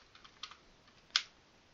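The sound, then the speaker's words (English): Quiet keystrokes from a computer keyboard as a password is typed for a git push over SSH: a few soft, scattered clicks, with one sharper key press near the end. “type in my password for my user, my SSH public or private key, whatever it is called, and there we go.”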